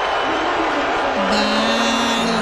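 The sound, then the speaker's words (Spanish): Crowd booing President Donald Trump at Game 3 of the NBA Finals between the New York Knicks and the San Antonio Spurs, a sustained low droning jeer that swells slightly partway through. “lo abucharon macizo en el tercer juego de las finales de la NBA entre los Knicks de Nueva York y los Spurs de San Antonio”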